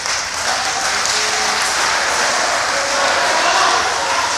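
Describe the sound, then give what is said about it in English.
Applause from an audience at a city council meeting, a dense, even wash of clapping that holds the same loudness from start to finish. “you're not helping by clapping and talking, really.”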